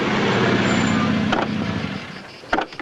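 A car slowing and pulling over to the roadside with a flat front right tire: steady low road and engine rumble that gradually eases, followed by a few sharp clicks and knocks near the end.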